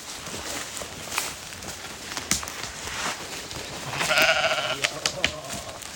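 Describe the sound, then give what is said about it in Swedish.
Sheep bleating on a mountainside where two families keep sheep in summer. One clear, tonal bleat stands out in the second half over a soft, rustling background, with a few fainter, shorter calls around it. “det är ju får här. Alltså det finns folk som är här på somrarna fortfarande. Vi har 2 familjer som har fårskötsel här, fårbönder.”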